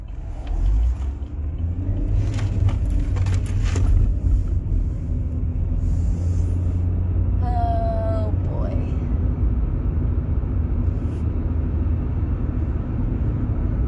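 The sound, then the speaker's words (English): Steady low road rumble of a car driving past a Home Depot in Kalispell: a continuous engine and tire drone that fills the whole clip, with one brief higher chirping tone midway. “Driving by the Home Depot now.”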